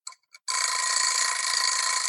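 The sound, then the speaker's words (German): An egg timer rings: two brief rattling bursts, then a continuous bright metallic ringing that holds steady and loud to the end, with no voices. “Das muss auch irgendwann wieder aufhören. Ich habe die Eieruhr hier nebengestellt, damit ich so ein bisschen auf die Zeit achte”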